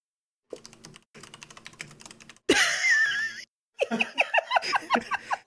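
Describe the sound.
Rapid typing on a computer keyboard comes in dense bursts of clicking, broken by short pauses, with a stretch of laughter mixed in.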